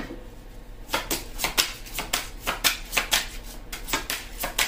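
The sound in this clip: Tarot cards are shuffled in a quick series of many crisp, papery flicks and riffles. The sound is fairly faint, with no talk.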